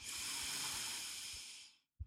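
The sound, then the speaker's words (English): A slow breath drawn in through the nose during a guided breathing exercise. The airy hiss holds steady for almost two seconds and fades, followed by a brief low thump. “And one last time. Inhale through the nose”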